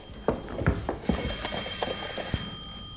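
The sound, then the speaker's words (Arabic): A faint telephone ringing, with a thin electronic tone mixed with a few dull thumps and low rumble. “من رنة التليفون عرفتك”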